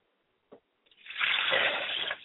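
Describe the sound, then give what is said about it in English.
Liquid is poured onto the ground as a libation, with a brief tap followed by a steady splashing gush that lasts about a second and then stops. “I pour libations to the west, and I say Ashe.”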